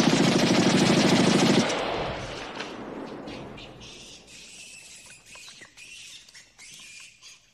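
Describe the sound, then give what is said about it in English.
American soldiers fire guns in every direction into the jungle in a loud, dense burst of rapid automatic fire lasting under two seconds. The roar then fades into a long decay, and fainter high chattering squawks follow. “The American soldiers fire toward Bill and in every direction into the jungle.”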